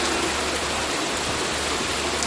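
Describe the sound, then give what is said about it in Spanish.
Torrential rain from a cold-drop storm in Vinaròs, Castellón, during a record downpour, heard as a steady, dense, loud hiss of falling water that barely varies in level throughout. “Así suena la gota fría en Vinarós, en Castellón, que ha batido el récord de mayor cantidad de agua por metro cuadrado en una hora, con 159 litros.”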